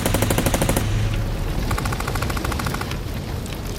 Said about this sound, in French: Pour seule réponse, il obtient les rafales de Kalachnikov.